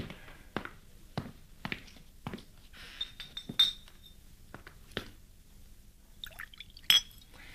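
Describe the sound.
Wine poured into glasses: a light trickle of liquid with several sharp glass clinks at uneven intervals, fairly quiet, with no voices.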